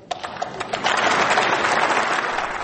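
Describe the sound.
Applause breaks out in the German Bundestag for statements by Angela Merkel. Scattered claps quickly swell into dense, sustained clapping that slowly eases off.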